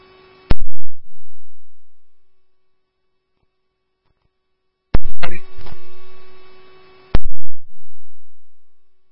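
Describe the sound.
Fire dispatch alert tones play over a radio channel: sustained electronic tones with a humming edge, broken by three sharp, loud bursts of radio noise that each die away.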